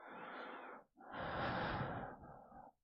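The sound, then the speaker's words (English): Breathing close to the microphone: two long, soft, airy breaths with a slight wheezy edge, separated by a brief pause and heard alone without talk. “Feel my breath as I lean over your chest.”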